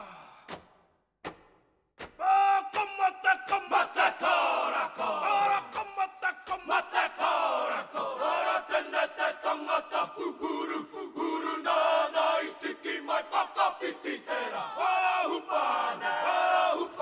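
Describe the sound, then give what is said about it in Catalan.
Maori haka war chant performed by a New Zealand rugby team before a match: a group of men shouting in loud, rhythmic unison, with many sharp accented bursts in a steady driving beat after two brief opening thuds. “Es diu Haka, i sona així.”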